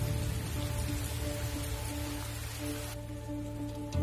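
Steady rain falling, a dense, continuous hiss of drops that stays even and unbroken from start to finish, with no voices over it.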